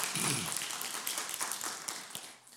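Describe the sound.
A church audience applauds to welcome a first-time visitor. A short burst of dense clapping lasts about two seconds and then tapers off.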